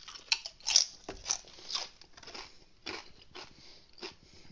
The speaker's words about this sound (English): I just ate a Cool Ranch Dorito. Oh, let me try a second.